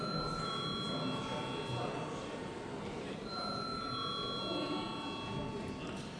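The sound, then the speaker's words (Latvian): A bell rings in a parliament chamber before a vote: bright, sustained electric ringing that comes in two spells, with a pause between them, over a constant low murmur of voices. “Lūdzu zvanu.”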